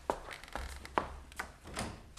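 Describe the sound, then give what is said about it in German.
Knocking on a door: a few soft, short raps spaced apart, faint against a quiet low hum. “Da klopft doch jemand. Ich gehe mal hin.”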